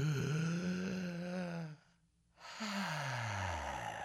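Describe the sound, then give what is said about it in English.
A person taking a deep breath, let out as two long, voiced, sighing exhalations. Each one slides downward in pitch, and a brief silent pause separates them. “That's a deep breath, right?”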